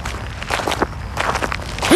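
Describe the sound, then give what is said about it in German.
Footsteps of people walking home across a cemetery on an icy-cold night, a steady run of soft, scuffing steps at an even walking pace with no talk. “Lass uns über den Friedhof nach Hause gehen. Ist kürzer.”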